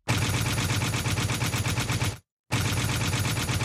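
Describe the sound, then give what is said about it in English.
A novelty button plays a stylized machine gun sound effect, loud rapid-fire rattling in two long continuous bursts separated by a short silent gap. “that's why I'm going to shoot myself with this this stylized machine gun button.”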